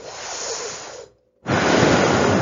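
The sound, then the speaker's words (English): Sitali cooling breath exhaled through the teeth, heard as a steady, airy hiss in two long stretches of breath noise split by a short silence, the second stretch louder and fuller than the first. “breathe in and then exhale through the teeth. It's a cooling breath, Sitali breath”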